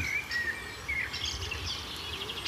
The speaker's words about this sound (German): ein Vogel zu hören ist, auf den ich schon die ganze Zeit gewartet habe.